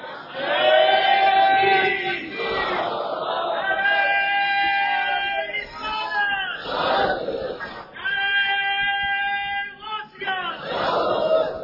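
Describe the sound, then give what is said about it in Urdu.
A crowd at a religious gathering chants a religious slogan in unison: a few long, sustained rounds of many voices with strong, tonal harmonics, loud throughout, separated by short, noisier gaps. “اگر تھک گئے گفتگو روک دوں، نعرہ لگاؤ”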